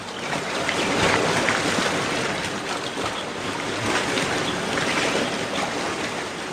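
Sea waves wash onto a white sand beach in a continuous, loud, broad rush of surf. The foamy hiss holds steady throughout, with no voices.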